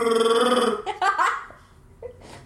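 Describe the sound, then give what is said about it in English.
A voice imitates a farting Wookiee with a drawn-out, gravelly, burp-like rasp, then a few shorter sputtering bursts that fade toward the end. “What would a farting Wookiee sound like?”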